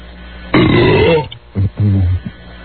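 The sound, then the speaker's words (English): A burp shaped into the word yo-yo: one long, loud, rasping belch, then after a short pause two shorter belched syllables. “here's yo yo, belching out yo yo.”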